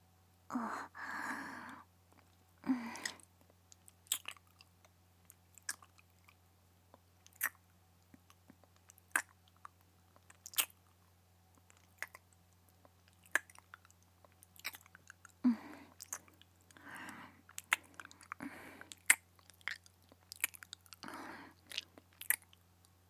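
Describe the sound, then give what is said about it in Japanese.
Wet chewing after another bite of food, sporadic soft squishes and clicks scattered through a quiet stretch, with a few denser bursts of mouth sounds and no talking. “それじゃあ、もう一口。”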